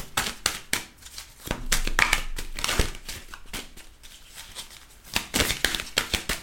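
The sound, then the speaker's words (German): Queen of the Moon Oracle cards being shuffled by hand, a fast run of many crisp, papery flicks and slaps that bunch into dense bursts and then thin out. “Und zwar, voilà, jetzt habe ich hier die Karten mit einsortiert, das wollte ich natürlich nicht.”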